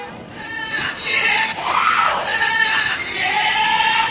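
A radio sound effect for the Ambulance of Funk: a loud, wavering, siren-like tone with bright, bleating harmonics. It runs continuously for about four seconds at a steady level.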